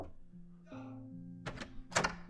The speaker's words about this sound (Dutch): Klop jij me even aan